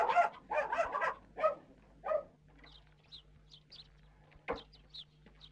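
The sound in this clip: A dog barks in a village yard with chickens about: a quick run of several sharp barks, then quiet with faint bird chirps.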